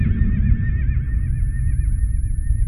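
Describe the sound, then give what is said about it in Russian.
A galloping horse whinnies in one long, wavering, high neigh that runs through the whole clip over a dense, steady low rumble, with no voices. “Ведьмак услышал цокот копыт мчащегося галопом коня, звук которого он ожидал.”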